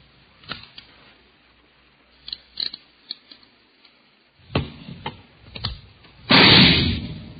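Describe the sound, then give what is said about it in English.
A .38 caliber revolver fires a single test bullet into a ballistics box. Scattered sharp mechanical clicks and rattles come before it, then one loud heavy blast near the end with a short decaying tail. “You have just heard a test bullet fired from a .38 caliber revolver found in the possession of a suspect.”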